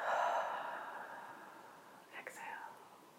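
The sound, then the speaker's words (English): A slow, deep breath is drawn in during a guided meditation. It makes a soft airy hiss that swells at the start and gradually fades, followed by a few faint, brief breathy sounds. “3 breaths in, starting now.”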